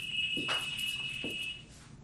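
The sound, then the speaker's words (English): A high, steady electronic alarm-like tone holds for about a second and a half, then cuts off. It is faint, with a couple of brief dull knocks underneath. “I thought that was an alarm or something”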